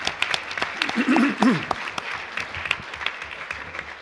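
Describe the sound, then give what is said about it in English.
Audience applause for a presentation, a steady patter of clapping hands with a voice briefly heard over it. “And I'd like to give them a round of applause.”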